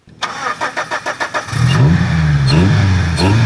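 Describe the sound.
A Thai tuk-tuk engine cranks in a quick run of rhythmic pulses, then catches and revs loudly. Its mid-pitched drone swells and dips with no talk over it.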